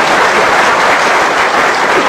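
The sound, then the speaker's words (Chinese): Loud audience applause during a comedy stage performance, a thick, unbroken wash of clapping that holds steady from start to finish. “您不鼓掌，他不唱 啊。 您要听一鼓掌的。”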